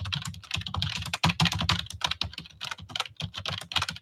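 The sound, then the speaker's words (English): Rapid typing on a computer keyboard while a report is written up, a dense, continuous clatter of quick keystrokes with brief uneven pauses and no voices. “I'm trying to type up the report right now to cancel all these shipping labels”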